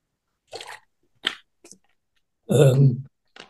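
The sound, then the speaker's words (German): A person pauses to sip a drink. A few short, wet mouth sounds are followed by one louder swallowing gulp, with nothing else around them. “Entschuldigung, ich muss einen Schluck trinken”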